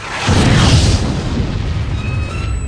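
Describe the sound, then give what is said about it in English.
Explosion of weapons fire hitting a starship, a single heavy deep boom that swells quickly and then rolls off into a sustained low rumble, with no voices. “Everyone felt the blast across the ship that revealed a battle had begun.”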